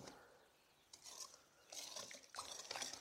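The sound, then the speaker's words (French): A whisk mashes mascarpone into cream in a bowl with short up-and-down strokes. It gives faint, soft scraping and light clinking in a few short bursts that grow a little louder toward the end. “Alors avec mon fouet, je viens déjà écraser avec le bout du fouet, avec un mouvement de haut en bas. Je viens écraser ma mascarpone.”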